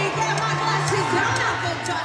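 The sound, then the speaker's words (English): Concert crowd singing along and cheering at a pop singer's show, a dense wash of many mixed voices with loose sung pitches over a continuous crowd roar. “The funny thing is, you notice the crowd is trying to sing along with her.”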